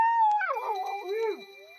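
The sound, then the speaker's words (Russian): Dog howling anxiously in the dark autumn night: a wavering, whining howl that glides up and down in pitch over nearly two seconds, fairly loud, then trails off into a fainter steady tone. “Слышится то отрывистый, то тревожно подвывающий собачий лай, какой издают псы, когда чуют врага, но не могут понять, кто и где он.”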